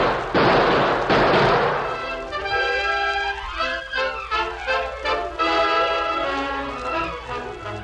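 Gunfire rings out in a radio drama shootout: a few loud, sharp bangs in the first two seconds, followed by quieter tonal sounds.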